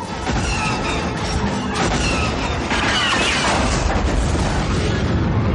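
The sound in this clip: A walker's cannon firing on an imperial vehicle in a science-fiction battle, with explosions: a loud, dense wash of booming blasts and crashing noise that runs on without pauses.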